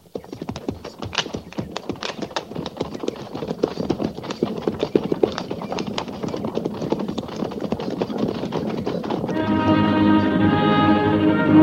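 Horses of a mounted army company trot along the Oregon Trail, making a dense, continuous clatter of many clip-clopping hoofbeats that builds slightly in loudness before music takes over near the end.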